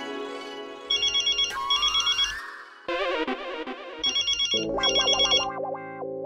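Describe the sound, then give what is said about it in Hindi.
A mobile phone rings with an electronic ringtone, a loud melody of quick high repeating beeps in short bursts that shifts pitch partway through, with no talk over it. “अरे ये तो जेठालाल का phone है, लेना पड़ेगा परम मित्र।”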